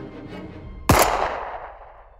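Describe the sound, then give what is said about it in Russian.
A deafening gunshot in an enclosed room: one sudden, loud blast cuts in after a low background, then rings out in a long echoing tail that slowly fades. “И оглушительный выстрел эхом по закрытому помещению.”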